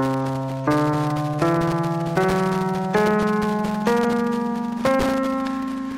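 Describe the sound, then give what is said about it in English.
A whole tone scale played as seven evenly spaced notes, each stepping higher in pitch, every note sustained and slowly fading before the next. “One of the most used and recognized is the whole tone scale, which is a stack of five whole steps. Sounds like this.”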